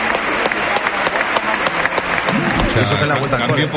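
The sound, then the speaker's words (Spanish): Standing ovation from the crowd at the Coliseum stadium during a football substitution: steady, sustained applause from a large crowd, heard under continuous talking throughout. “entra Mayoral, esta es la ovación del Coliseo. Todo el mundo en pie, ¿eh?”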